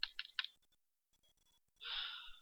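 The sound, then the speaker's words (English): Faint, shallow breathing comes over a radio mic in an audio drama: a few soft clicks, a near-silent gap, then one airy breath that swells and lingers at the end. “Take a breath when you hear his. Slow and steady. It only sounds shallow because of the frequency you're on. He's breathing.”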